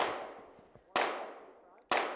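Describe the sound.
Gunshots at an outdoor shooting range in a wooded clearing: three sharp, loud cracks at a steady interval of about a second, each trailing off in a long fading ring.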